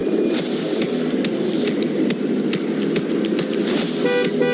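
Car horns honk in a traffic jam, with a few tonal toots at the start and again at the end over a steady, loud rush of traffic noise.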